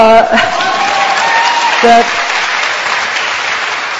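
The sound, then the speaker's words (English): A crowd at a speech cheers and applauds in a loud, continuous wash of clapping and voices that holds steady before easing slightly in the second half. “Here's what she said to a crowd, to a cheering crowd, not too long ago.”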